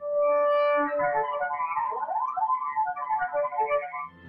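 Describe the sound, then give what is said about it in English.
Cello harmonics: thin, glassy high tones held and shifted, with a quick upward glide midway before the wavering notes resume. The tones are soft and there is no talking. “We can do harmonics, and those sound like this.”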